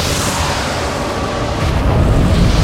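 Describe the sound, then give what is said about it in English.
A raging fireball explosion engulfs a planet's ashen surface, making a dense, continuous roaring rumble that swells slightly louder toward the end, with no voices. “A raging fireball engulfs the ashen surface of the planet, blotting out the sun.”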